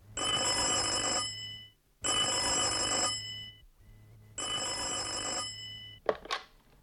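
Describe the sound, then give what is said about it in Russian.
A telephone bell rings in three long bursts separated by short pauses, bright and metallic, with no voices over it. “И я позвонил Элис в эту среду.”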